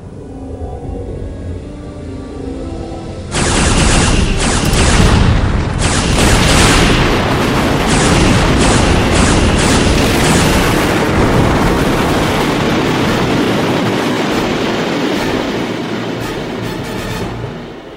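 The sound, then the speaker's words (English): Quantum torpedoes strike a cube-shaped alien starship and destroy it: a low hum gives way to a sudden, heavy blast, then a long, roaring, rumbling explosion that slowly fades. “arm a batch of quantum torpedoes and fire.”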